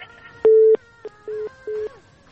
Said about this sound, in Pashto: هلو، له بده مرغه چې اړیکه یې قطع شوله. اړیکه یې قطع شوله